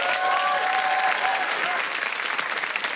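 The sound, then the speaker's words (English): A studio audience at a talk show applauds as a cosmetic surgeon guest comes on, a loud, steady wash of many clapping hands that holds at an even level. “Put your hands together for Dr. Daniel Lanza.”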